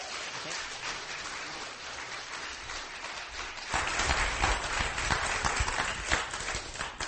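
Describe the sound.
A church audience applauds to welcome a guest speaker before a sermon. The clapping is a dense, steady patter that swells louder about halfway through and keeps going to the end.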